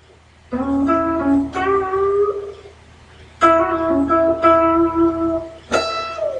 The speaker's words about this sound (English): Okay, so BB King lick number one goes as follows. I'll play it up to speed first and then break it down.